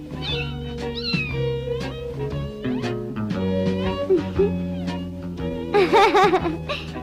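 A cat meows a few times in rising and falling, drawn-out cries, the last one louder and higher, over a steady low hum.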